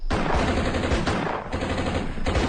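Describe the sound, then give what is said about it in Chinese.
Heavy gunfire from troops firing on a temple: a dense, continuous barrage of rapid shots that rattles loudly for the whole stretch, with no voices. “给老子开枪，狠狠的打！”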